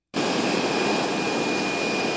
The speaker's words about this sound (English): That's the sound of United Airlines passenger jets idling on runways at airports across the U.S. today.